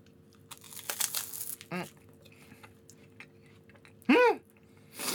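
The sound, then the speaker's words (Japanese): Crisp crunching as someone bites into a monaka wafer sweet with anko bean-paste filling and a melon-soda flavour: a few dry, crackly bursts near the start, then a brief voiced murmur and a last crackle. “なんだろう、メロンソーダの味がする、すごい、でもなんかモナカのパリパリ感もパリパリ感も半端ないんだけど”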